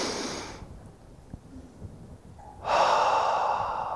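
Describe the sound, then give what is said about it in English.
A deep breath taken aloud by a preacher during a church sermon: a brief breathy rush of air, a quiet pause, then a longer, louder rush of breath. No one speaks. “We need to take a deep breath.”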